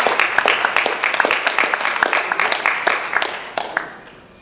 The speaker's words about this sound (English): Let's give him a hand and welcome back home.